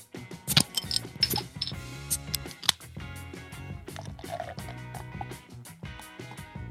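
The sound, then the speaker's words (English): Beers being cracked open and poured, with a few sharp snapping clicks and soft squishing, liquid sounds over steady background music. “So let's get to it and crack the beers. Let's crack them.”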